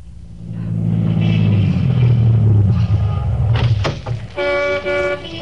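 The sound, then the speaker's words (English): A brand new Cadillac sedan pulls to a stop on a busy New Orleans corner: a loud engine rumble sinks lower as it slows, followed by a few short, bright horn toots. “Lawton was waiting on a busy New Orleans corner for his brother when a brand new Cadillac sedan pulled to a stop.”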